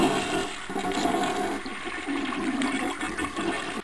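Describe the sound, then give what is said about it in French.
A toilet flushes with a steady, loud rush of swirling water and gurgling that runs unbroken for several seconds. The water noise stays dense and even, with no voices. “et surtout, surtout, surtout, tirer la chasse.”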